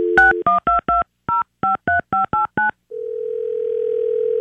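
Telephone number dialed on a touch-tone phone: a quick, evenly paced run of short keypad beeps at varied pitches, then a steady single tone that holds and slowly gets louder.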